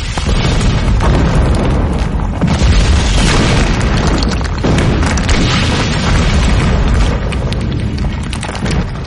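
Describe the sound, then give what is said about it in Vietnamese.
Violent explosions from artillery shelling, a dense, loud barrage of booms and rumbling blasts running without pause through the whole clip. “Đột nhiên, nhiều tiếng nổ dữ dội.”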